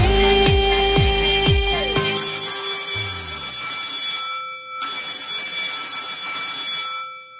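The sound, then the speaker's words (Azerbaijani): A school bell rings with a bright, metallic tone. A few sharp strikes at the start give way to a sustained, shimmering ring that holds steady and then fades out. “Deyirəm sizə indi bu zəng 11 il eşitdiyiniz zəng kimi adi də gələ bilər.”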